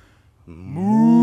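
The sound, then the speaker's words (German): A person imitates a cow mooing while exhaling, a single rising voiced moo that starts low and swells into a loud, sustained tone. “Und dann ausatmen. Und zwar in Sprache einer Kuh.”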